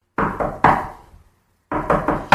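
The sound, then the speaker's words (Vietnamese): Knocking on a door: a short run of a few firm knocks, a brief pause, then another run of about four knocks, loud and alone with no voices. “Tiếng gõ cửa đáng sợ đó lại giống như ác quỷ đòi mạng, không ngừng quấy rầy cô.”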